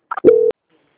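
Telephone call-transfer tones: two short blips, then a single steady mid-pitched beep lasting about a quarter second, followed by silence.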